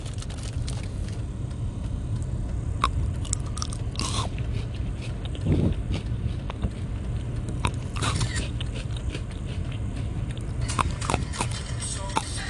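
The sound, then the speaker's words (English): Crisp crunching and biting as Pocky biscuit sticks are eaten, with many sharp crunches scattered over a steady low background hum. “Enjoy me the sounds of ASMR of me eating pocky.”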